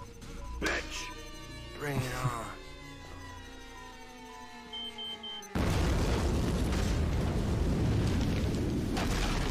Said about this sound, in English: It's a bomb.